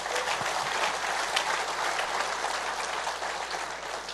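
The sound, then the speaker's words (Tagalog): Congregation applause for the Lord during a church sermon: a dense, steady wash of many hands clapping, fairly loud and even for about four seconds with no voices standing out. “Palakpakan nga po natin ang Panginoon.”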